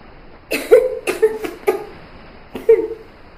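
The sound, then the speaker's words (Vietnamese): A woman coughs up seawater in a few harsh, uneven bursts with a strained, slightly voiced tone, standing out loudly against a quiet background. “Vài tiếng ho vang lên, nước biển bị dồn nén trong cổ họng cô được ho ra.”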